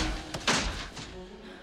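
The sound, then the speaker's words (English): A door being shut during a dramatized chase scene: one dull thump near the middle, followed by a short fading rumble over a low background. “Will closes the door on Odo.”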